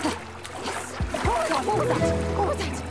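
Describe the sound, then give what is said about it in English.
Water sloshing and splashing as a person wades across a knee-deep stream, a continuous gentle churn of splashes with a voice speaking over it. “She moves to the edge of the stream. Oh, I'm in. She walks across the knee-deep water.”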